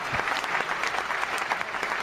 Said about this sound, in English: hand clap for The Bridge. You know, when you run all kinds of these sound effects, you impede the flow of the show.